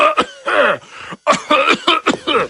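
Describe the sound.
A voice imitates coughing, producing a series of short, voiced coughs and throat-clearing bursts in an uneven rhythm, fairly loud and with no other sound behind them.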